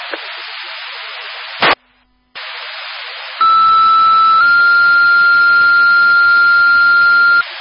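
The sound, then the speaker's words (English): Emergency dispatch paging tones for a medical and gas call: a short electronic beep and a burst of radio static, then one steady tone followed by a second, longer held tone, both loud over constant hiss. “Stand by for tones on a second 31 medical and gas.”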